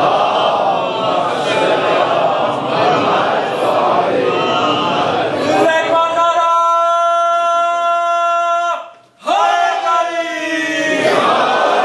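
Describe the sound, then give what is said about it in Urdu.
A crowd loudly shouts the Naara-e-Haidari slogan in a dense roar of voices. Long sustained chanted calls follow, broken by a brief pause before they resume. “میں آپ کی خدمت میں عرض کرتا ہوں بلند آواز میں نعرہ حیدری”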